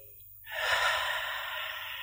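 A deep breath taken slowly: a soft, steady, airy hiss that starts suddenly and holds evenly for over a second, faint and without speech.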